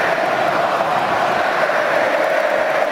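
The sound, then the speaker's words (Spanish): Crowd noise fills Estadio Azteca during a football match. The stadium audience makes a dense, steady roar with no distinct cheers rising out of it. “El público hace lo suyo en el Estadio Azteca.”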